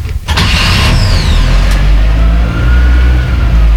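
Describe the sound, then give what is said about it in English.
A Toyota engine starting with ignition and a little throttle: a loud burst as it catches, a brief whine that rises and falls, then a steady deep rumble. “And ignition gear. Little throttle. Push this Toyota.”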